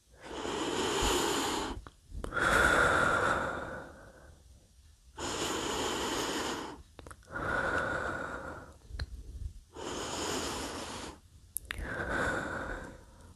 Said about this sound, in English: just close your eyes, take a couple of deep breaths, just the way I'm gonna do now.